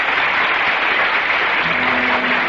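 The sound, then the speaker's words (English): A theater audience applauding as the curtain falls on the final act of an original play in a small theater off Times Square, a loud, dense ovation of clapping that holds steady throughout. “As the curtain falls on the final act of another original play in the little theater off Times Square, Mr. Soleil and Miss Claudia are in front of the footlights. The audience is giving them an ovation.”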